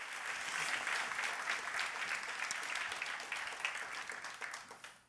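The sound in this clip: An audience applauds to welcome a guest speaker: steady, dense clapping that holds for several seconds, then thins and fades out at the end.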